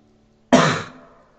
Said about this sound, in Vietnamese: chị ta đẳng hắng